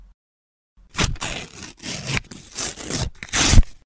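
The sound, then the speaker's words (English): Paper being torn up, sheets of written resolutions, heard as several rough, crackling rips in quick succession after a short silence, each burst loud and raspy, with the last tear the strongest. “Okay, that was the sound of me tearing up my New Year's resolutions.”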